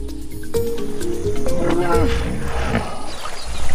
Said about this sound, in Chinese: 河马会发出各种声音交流，这种刺耳的咆哮十分响亮，几千米外都能听得到。